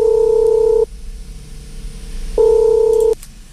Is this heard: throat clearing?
no